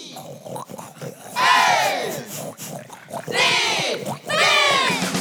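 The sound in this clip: Wild boar squealing and grunting: several loud, harmonic cries with rising and falling pitch, separated by brief gaps, with lower rough grunting beneath.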